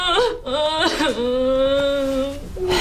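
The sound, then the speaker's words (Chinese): A person crying in a tense family moment: a sustained, high, wavering wail with sobbing catches and breaks, steady and fairly loud throughout, with no clear words. “别哭了，哭也解决不了问题呀”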